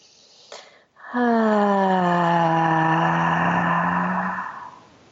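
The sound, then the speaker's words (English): Breathing exercise: a short breath drawn in through the nose, then a long voiced exhale through the mouth that holds as a steady low hum-like tone for about three seconds before fading. “it sounds something like this. It's like a 3 to 4 second inhale through the nose and exhale through the mouth.”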